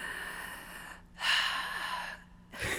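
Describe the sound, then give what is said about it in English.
A voice imitates a baby's labored panting with a few ragged, breathy gasps and rasping pulls of air, broken by short pauses. “And then this labored panting”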